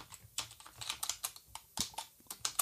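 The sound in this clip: Typing on a computer keyboard: a fast, irregular run of many crisp key clicks with uneven spacing, heard alone without any voices.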